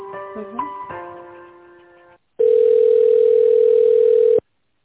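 Telephone hold tone while a call is transferred: one steady, loud beep of even pitch lasts about two seconds and cuts off abruptly.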